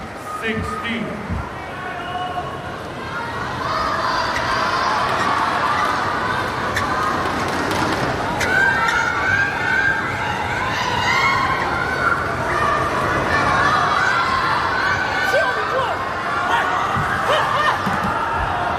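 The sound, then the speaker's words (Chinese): Players shout to cheer themselves on during a match, a continuous stretch of excited crowd-like shouting and calls with a commentator talking over it. “双方现在都在给自己加油啊，鼓劲儿。”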